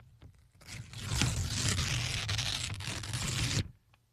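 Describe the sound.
Scissors cutting a piece of paper make one continuous crisp, rasping scrape that lasts about three seconds at an even loudness. No one speaks.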